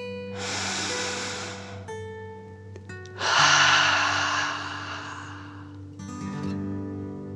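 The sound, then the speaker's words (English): Slow, deep breaths in and out during a guided relaxation, heard as a few long, airy, hissing breaths over soft sustained music. The last breath is fainter. “Let the cloud float your body up and breathe like a dragon, in and out.”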